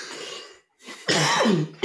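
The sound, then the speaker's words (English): A hoarse cough after a night of karaoke: a few rough, harsh bursts, one at the start, then a short gap of silence, then louder, rasping coughs close together, with no speech. “Karaoke cough.”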